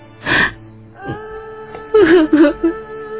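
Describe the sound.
A woman cries in a few wailing sobs and whimpering breaths of wavering pitch, broken by short pauses, over steady sustained tones.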